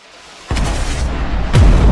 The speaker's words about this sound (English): The blast drove into his back and threw him forward.